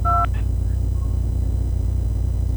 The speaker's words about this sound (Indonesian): Kalau belum ada di Palembang, kita sambungkan untuk Jakarta ya.